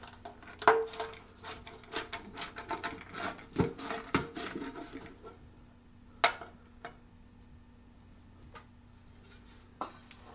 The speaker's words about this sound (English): Grab your opener and your paint can. Open it up.